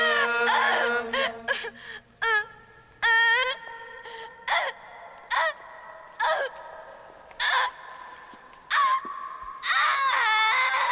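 A woman sobs at a wedding ceremony as she walks up the aisle, giving many loud, wailing, wavering high-pitched cries separated by brief pauses.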